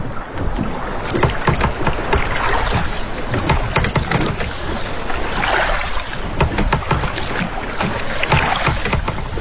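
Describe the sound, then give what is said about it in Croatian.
Oars splashing as rowed fishing boats leave a harbor in the dark, a loud, continuous wash of watery slaps and sloshing with no voices. “na većini je vladao muk i čulo se samo pljuskanje vesala.”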